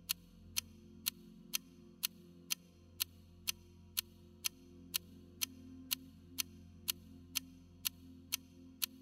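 Even ticks of a clock, crisp and evenly spaced at roughly two per second, soft over a low steady hum.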